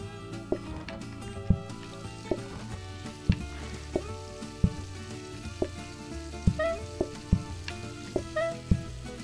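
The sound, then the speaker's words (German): Food sizzles on a stove in a restaurant-building video game, a steady frying hiss beneath looping game music marked by regular soft thumps and a few short chiming notes. “Junge, geht der Herd ab.”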